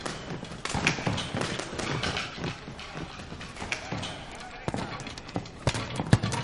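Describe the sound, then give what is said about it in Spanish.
Many irregular thuds and slaps of a punching bag being hit during boxing practice in a gym, the blows landing in quick uneven bursts with short pauses between them. “Camina hasta la chica que practica con el punching.”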